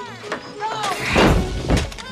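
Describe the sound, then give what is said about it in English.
A large screw falls and clatters to the floor after a control arm strikes a laser gun, heard as a couple of heavy crunching thuds amid whining machine tones and voices. “He hits the laser gun with the control arm. A large screw falls next to the kids.”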